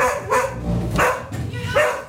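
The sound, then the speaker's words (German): A trained school dog at a secondary school barks in three short, sharp bursts spaced roughly evenly across the moment, each bark loud and clear over a low background murmur. “Ja, das ist Raki, ein Schulhund von zweien an der Maximilian von Welsch Realschule in Kronach.”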